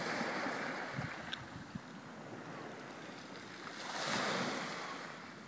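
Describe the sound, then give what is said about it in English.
Sea waves and wind on a beach make a faint, steady rushing wash that swells briefly near the end, with a few soft knocks early on. “Have a recording of the sea and the wind and other random things that you might find on the beach.”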